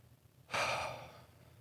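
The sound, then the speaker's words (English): A group taking a deep breath together, heard as one soft, breathy exhale that swells suddenly and then fades away slowly. “just let's just take a collective deep breath together. Ready?”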